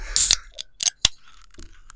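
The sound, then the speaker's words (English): A soda can cracking open, a cola-like drink: a few sharp clicks and bursts of bright, fizzy hiss, loud and without talk. “get that crack of the can there”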